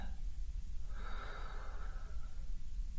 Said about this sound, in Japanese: 息を吸って